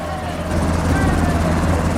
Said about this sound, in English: The helicopter hovers over the square.